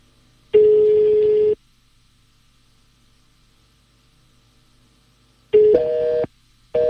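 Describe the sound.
Ringing tones of an unanswered telephone call: one steady tone of about a second, a long silence, then another tone that steps to a slightly different pitch, a short gap, and the tone starting again.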